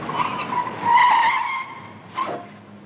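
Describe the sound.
Tires squeal loudly as a car driven fast skids to a stop to park, a long, high, wavering screech followed by a shorter second squeal, with no voices.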